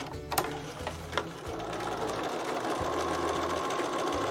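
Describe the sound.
A sewing machine stitches a doll with a steady, rapid mechanical whirr and rattle, a couple of sharp clicks sounding near the start.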